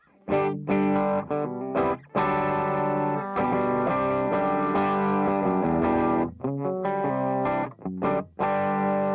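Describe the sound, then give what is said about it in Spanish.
Electric guitar played through an HX amp model with a cabinet IR and a drive effect, giving a loud, distorted tone: strummed chords ringing out, broken by a few brief stops and choppy accents. “Esto es un sonido así, estoy usando un drive con el.”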